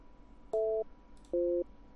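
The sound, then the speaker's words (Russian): Skype's call dialing tone sounds as two short two-tone beeps, each about a third of a second long and evenly spaced, the second pitched slightly lower, over a faint background hum. “Сейчас, чтобы вас этот, короче, звук не мучил от скайпа, я его сейчас отключу от набора.”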